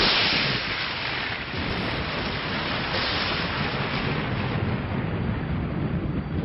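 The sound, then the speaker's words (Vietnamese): Deep, continuous rumbling thunder outside a ruined ancient fortress after the rain has stopped; a dense, steady roar holds at an even loudness throughout, with no distinct claps standing out. “mưa đã ngớt từ lâu, song tiếng sấm trầm đục vẫn vang lên đùng đùng như chưa từng dứt”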